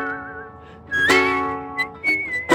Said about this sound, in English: look at this sitting guy on the beach, playing on his ukulele in a bright yellow shirt, whistling.